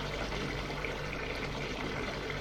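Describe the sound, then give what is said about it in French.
Water runs steadily from a washbasin tap in a constant, even, rushing hiss with no pauses or talk. “ouvre l'eau du lavabo, boit l'eau à même le robinet,”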